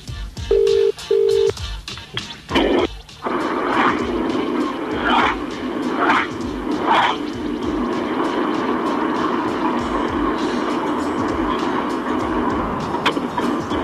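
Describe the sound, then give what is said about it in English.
Phone keypad tones as a number is dialed: two short, steady electronic beeps at the start, followed by a long stretch of loud, noisy sound on the line. “You might be able to tell by the buttons I press.”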